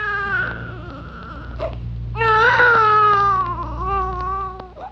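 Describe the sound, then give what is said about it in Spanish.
A little girl cries in high, wavering sobs, one bout first, then a brief pause before a louder, longer wail that gradually trails off. “los llantos de esta niña ya me están desesperando, ¿eh?”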